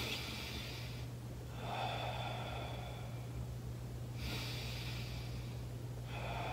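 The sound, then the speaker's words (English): Deep breaths drawn through the diaphragm: two long, airy, hissing breaths, each a couple of seconds, faint over a constant low hum, with no speech. “So every time I take a deep breath in, I have this big, big, big, big belly.”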